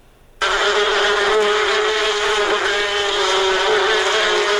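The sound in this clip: Honey bees buzzing at a bee farm in Kunduz: a steady, dense drone with strong harmonics that starts abruptly and holds at an even, loud level throughout.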